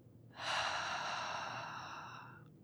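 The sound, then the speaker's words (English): A single long, slow exhale through the mouth during a guided breathing exercise: a breathy rush that starts abruptly, lasts about two seconds and fades away gradually, heard alone with no talk. “And on the exhale, it'll sound like you just got done drinking McDonald's Sprite. So, so inhale again. Exhale.”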